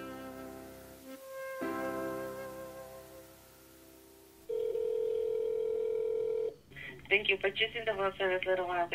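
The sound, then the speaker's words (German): Telephone tones from a call placed to a wedding chapel in Las Vegas: layered steady tones give way to a single long, even tone lasting about two seconds, then a voice speaks. “Er ruft tatsächlich in der Liebestunnelkapelle in Las Vegas an.”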